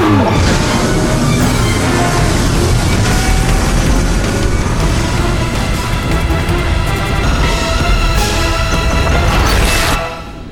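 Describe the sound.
A massive roaring crash from a spaceship colliding during a landing on Mars in an audio drama: a dense, loud, sustained rumble with grinding debris that holds steady for about ten seconds, then drops off abruptly at the end.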